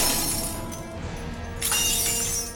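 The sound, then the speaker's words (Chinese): Glass container filled with blue liquid smashing against a table corner, a bright crash of shattering glass followed by scattered tinkling fragments, with a second burst of breakage later. “胖虎冲了过去，想接住那个瓶子，但他还是晚了一步，瓶子在桌角撞碎了”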